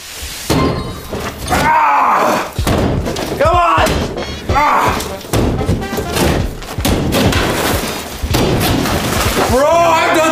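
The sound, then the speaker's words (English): Part of a wall is smashed apart in heavy, repeated thuds and crashing impacts. An excited voice shouts and talks loudly between and over the blows. “I don't know how I did that, but let's keep breaking. I want to destroy that part of the wall.”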